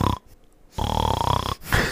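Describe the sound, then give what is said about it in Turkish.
A person imitates snoring with their voice: a rough, rattling, pulsing drone that comes in two loud stretches with a quieter gap between them. The sound is short and harsh. “Noise gate, evet, kapatıp horlamak istiyorum şu an.”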